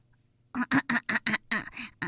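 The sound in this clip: A voice imitates a duck quacking in a story about animals singing: eight short, nasal quacks in a quick, even rhythm, loud against silence.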